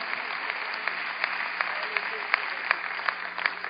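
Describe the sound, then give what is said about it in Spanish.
An audience at a church youth service during a Hispanic national convention applauds: faint, even clapping with a steady wash beneath, marked by regular sharper claps in a steady rhythm. “dele un fuerte aplauso al Señor Jesucristo esta mañana antes de tomar su asiento”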